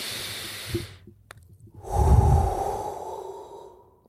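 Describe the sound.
A deep breath taken before a prayer: a soft airy hiss, a short pause, then a longer, fuller and louder rush of breath that slowly fades, with no voice.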